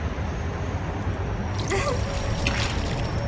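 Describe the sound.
Water splashes and pours steadily while someone is being bathed, a continuous rushing wash with faint drips and trickles over the top and no talk.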